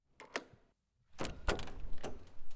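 A door being opened, marked by a few sharp clicks and knocks spread over a broad rustling noise, with a short silent gap near the start and no voices.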